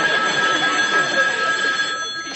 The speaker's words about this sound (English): will you get that? Oh, sure. No, the phone. The phone.